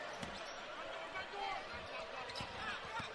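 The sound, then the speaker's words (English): A basketball is dribbled on the court during a BYU versus Morgan State college game. A few sharp bounces come at uneven intervals beneath continuous commentary and crowd murmur. “Oliver dribbles into a long two with his foot on the line from the right wing.”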